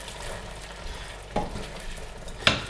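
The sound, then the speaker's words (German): A teaspoon of balsamic vinegar is stirred into a mixture: a steady sizzling hiss runs throughout, broken by two short, sharp scrapes of the spoon. “So, was jetzt noch reinkommt, ist ein Schuss Essig, also ein Teelöffel Balsamico-Essig, auch unterrühren.”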